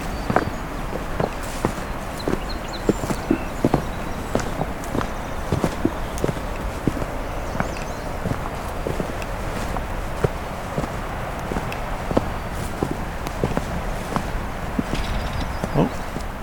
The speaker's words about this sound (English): Well, I'll walk a little further here, cover some new territory.